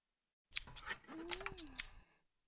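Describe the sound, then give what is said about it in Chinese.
Scissors cut in several crisp, separate snips over about a second and a half. Each is a sharp metallic click, quiet overall, with short pauses between the cuts. “墙上那个专用剪刀”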